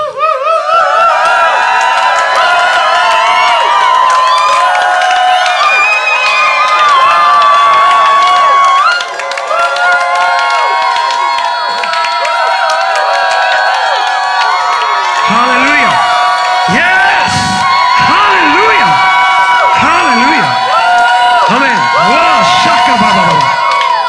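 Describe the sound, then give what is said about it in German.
Congregation cheering and shouting in a practice round of rejoicing: a loud, continuous mass of voices, whoops and shouts that fills the whole clip without pause. Sharper individual shouts rise out of the crowd toward the end. “Wir können durchaus mal Probe jubeln.”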